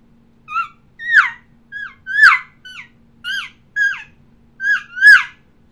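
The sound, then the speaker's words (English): Nine short, high-pitched squealing mews, each sliding downward in pitch, come in an uneven series with brief gaps. A human caller imitates an elk calf trying to locate its mother. “that calf sounds like this when she's trying to locate mom.”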